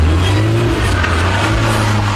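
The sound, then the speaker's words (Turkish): A car's engine revs hard while the car drifts, giving a loud, steady low drone that holds through the whole moment without a break. “Son bir ay içerisinde özellikle drift ve motosikletlerle akrobatik hareketler yapanlara yönelik sıkı bir inceleme yapıldı.”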